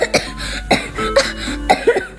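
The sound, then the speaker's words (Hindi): Several harsh, chesty coughs in quick succession, loud and uneven, with strained breathy sounds between the bursts. “वो खांसते खांसते कहता जा रहा था”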